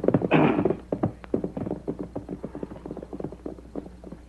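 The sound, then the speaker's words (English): Horses' hooves clip-clop on a trail as two riders ride away. The rapid, uneven hoofbeats are many and strongest at the start, then settle into a softer, steadier patter. “And as the Lone Ranger and Tonto rode away, one of them laughed.”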